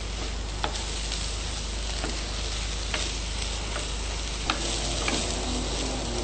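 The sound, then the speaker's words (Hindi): Fresh chopped green fenugreek leaves sizzle steadily as they fry with cumin in a pan of vegetable curry. The even hiss is broken by a few sharp ticks. “Fresh हरी मेथी कटी हुई mix कर देंगे। इससे आपकी सब्जी में खुशबू अच्छी आएगी। और इसे थोड़ी देर पकने दीजिए जब तक मेथी की खुशबू निकले।”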